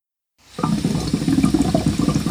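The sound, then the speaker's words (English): Water bubbling in a hookah while people sit around a table: after a short silence, a steady, dense run of low gurgling pulses begins and continues without any talk. “That sound you just heard was a hookah.”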